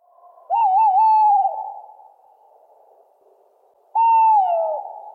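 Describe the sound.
A male tawny owl sings: two clear, hollow hoots, the first longer with a wavering, tremulous middle and the second shorter. The notes are separated by a few seconds of near silence, and no voices are present.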